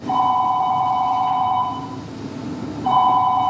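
Telephone ringing in a stage play about a quarrelling couple: a loud, steady electronic ring that sounds in one long burst, pauses, then starts again over a noisy background.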